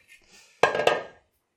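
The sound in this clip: Dishes, a cutting board and glasses clatter as they are handled. Two sharp, bright knocks come close together, and each leaves a short ringing clatter that fades.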